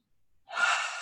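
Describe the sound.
A single deep inhalation from a guided breathing exercise: a soft, airy rush lasting about half a second, heard alone after near silence.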